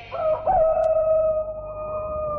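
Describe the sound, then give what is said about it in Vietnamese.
A rooster crowing by a river, one long drawn-out call that starts ragged and then holds a steady, strained tone before slowly fading. “Gà vừa gáy dứt tiếng thì một chiếc thuyền to xuất hiện”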